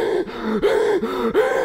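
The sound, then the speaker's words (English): A voice imitates heavy, exhausted breathing after punishing running drills at sports practice: rhythmic, raspy, voiced pants that repeat a few times at a steady pace, each breath rising and falling in a strained, wheezing tone. “I'm breathing like Quasimodo. Just like that.”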